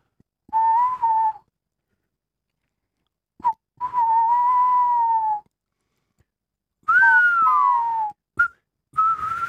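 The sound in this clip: Whistled imitation of a tawny owl call, produced by plain whistling rather than blowing into cupped hands: a few long, wavering hooting tones separated by silent pauses, the later phrase sliding downward in pitch, with no talking.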